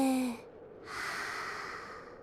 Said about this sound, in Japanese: 吐いて、吸って、吐いて、